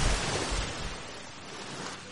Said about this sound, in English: I saw something. Let's see. Let's dive into the water.